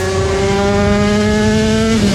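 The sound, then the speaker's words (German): Classic old motorcycles racing at a classic Grand Prix in Schleswig-Holstein make a loud, steady engine drone rich in buzzing harmonics, which dips lower in pitch near the end. “Das ist der Sound vom Shaggerotter Classic Grand Prix in Schleswig-Holstein am 1. Juli-Wochenende. Klassische, alte, richtig geile Motorräder, soweit das Ohr hören kann.”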